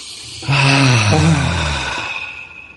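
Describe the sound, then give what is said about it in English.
A single deep breath taken to clear the mind: one long, sighing exhale that starts abruptly, holds a soft voiced tone over airy hiss for about a second and a half, then tails off. “Let's take a breath to clear our mind.”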